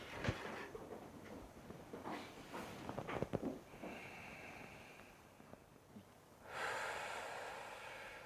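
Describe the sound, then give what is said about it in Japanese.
Slow, faint breathing during a one-minute guided breathing exercise, with soft airy inhales and exhales and a few short sniffs, ending in a longer, steady rush of breath. “1分間ちょっと呼吸してみましょう。呼吸、”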